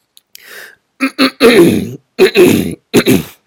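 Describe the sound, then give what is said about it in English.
A person clears their throat in a series of rough, voiced rasps. A faint breathy one comes first, followed by several louder, gravelly bursts with short pauses between them. “Gotta clear the throat, because it relates to that.”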